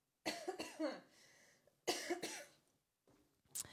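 Coughing from someone with a tickle in the throat: two loud, harsh bursts of coughs separated by a pause, followed by fainter throat sounds, with no talking.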